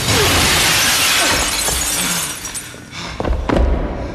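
Glass partition shattering as someone bursts through it: a loud, sustained crash of breaking glass, with a few sharper impacts near the end.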